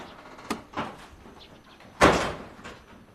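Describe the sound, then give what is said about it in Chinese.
A door is shut with one loud, sharp bang, after a couple of softer knocks and rattles. “门给我关上！”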